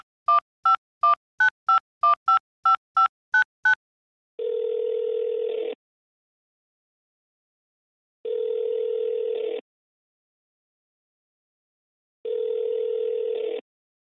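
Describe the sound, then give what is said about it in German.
Telephone call being dialed: a quick run of about a dozen short, bright keypad tones, then three long, steady ringing tones separated by silent gaps. “ruf an und ich bin gespannt, ob er abnimmt”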